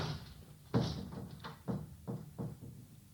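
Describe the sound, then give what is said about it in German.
A door blown open by the wind gives a series of several dull bangs and knocks, fairly quiet and irregularly spaced, with no voices. “Wer hat denn die Tür aufgerissen? Das muss der Wind gewesen sein.”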